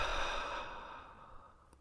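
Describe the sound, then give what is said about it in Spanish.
A slow, complete exhale through the mouth during a guided breathing exercise: one long, airy, breathy rush that gradually fades over about two seconds, with no talk over it. “Y luego exhala lenta y completamente por la boca,”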